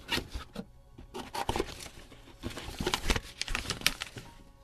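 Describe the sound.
A paper envelope of a letter is opened with many soft, irregular crackles, crinkles and small tearing rustles, some louder bursts standing out among quieter handling noises.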